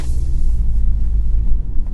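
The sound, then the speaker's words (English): A car driving on the road produces a deep, steady rumble of engine and tire noise, heard from the driver's seat. It is loud and continuous, with no talk. “Shit, I missed my turn. Whatever. It's very hard to podcast and drive at the same time. It's probably not very safe.”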